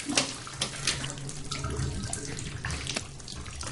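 Water splashing and running in a bathtub as a seated woman is washed: soft, continuous sloshing and trickling with a few brief louder splashes, fairly faint.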